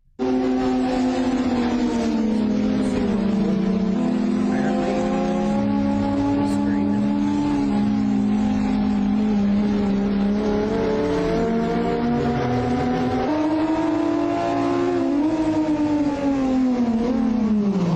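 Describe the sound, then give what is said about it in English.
Forklifts race with a loud, continuous engine drone and whine that shifts up and down in pitch as they speed up and slow down throughout. “Have you ever seen forklift racing? No. Well, you're about to.”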